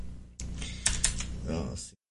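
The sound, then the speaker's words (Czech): Typing on a computer keyboard, a rapid run of clicking keystrokes at an uneven rhythm, heard under a voice talking. “Tak, máte někdo doporučení na velmi tichou klávesnici?”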